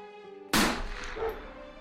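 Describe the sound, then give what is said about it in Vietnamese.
A single sharp gunshot is fired into the air by police or border guards at a standoff. The loud, abrupt crack starts after a quiet tonal passage, then decays into a rumbling tail with a smaller bump afterward. “Là cảnh sát và bộ đội biên phòng, có cả tiếng súng bắn chỉ thiên và tiếng của chó nghiệp vụ.”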